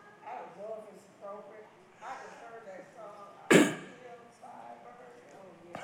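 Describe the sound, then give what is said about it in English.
Throat clearing at a church service: one short, harsh, loud burst midway, set among a voice talking or singing before and after. “Don't ask me to sing it. I'm trying to get my throat clear now.”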